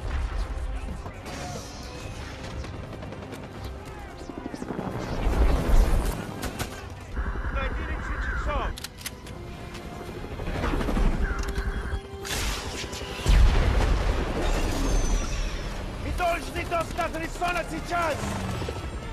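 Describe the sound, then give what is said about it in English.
Rocket or grenade launcher fire and explosions in a TV action scene: several loud booming blasts amid dense rumbling noise, with people talking at times. “Nick Fury shot that damn rocket or grenade launcher and just like put it down.”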